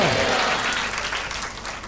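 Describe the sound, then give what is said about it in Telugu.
Congregation clapping loudly in praise during a sermon, a thick, continuous wash of applause that stays strong and steady from start to finish, easing slightly toward the end. “అందరూ బిగ్గరగా చప్పట్లతో దేవుని కనపరచండి హాలలోయ”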